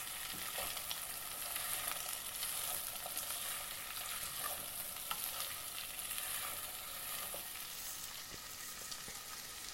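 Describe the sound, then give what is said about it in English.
Onions frying in oil while being stirred around the pan give a steady, even sizzle with light scraping taps, with no talking. “it says to stir it really frequently because you want it all coated in the oil and cooking evenly. I've got a few bits of onion missing there. Just going to shove these around the pan a bit.”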